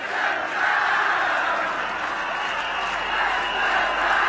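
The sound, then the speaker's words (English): Football fans in Brighton roar and chant with some clapping mixed in, a loud, continuous swell of crowd noise that holds throughout. “Alright, clap! Alright, clap! That's what you want to say!”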